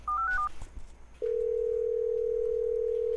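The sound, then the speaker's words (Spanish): A Telegram app call ringing tone opens with a quick run of stepped electronic notes, then a short pause, then a long, steady mid-pitched tone that holds to the end. “Deja ver si lo llamo por Telegram, a ver qué me dice.”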